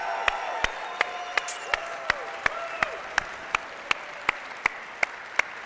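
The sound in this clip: A church audience applauds to welcome a speaker onto the stage: loud, sustained clapping with sharp, evenly spaced claps cutting through the wash of hands.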